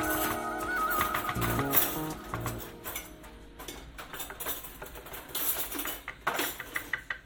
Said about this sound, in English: So I'm getting like this and give it a good stir. That's it. That's it. So I'll do a bit of that. That's all you've got to do. Stir it.